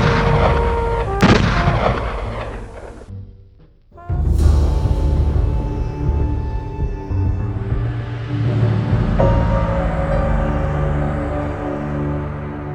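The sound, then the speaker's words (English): Pistol gunfire: a few sharp, loud shots with heavy, rumbling noise between and after them, and no voices. “My guns began firing.”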